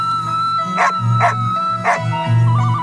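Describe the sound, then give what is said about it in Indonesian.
A dog barks a few times in short, yipping bursts over a steady tonal backdrop. “Tidak lama kemudian, datanglah seekor anjing yang bernama Tumang.”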